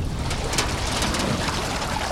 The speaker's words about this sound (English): are slowly backing a simple aluminum boat into the water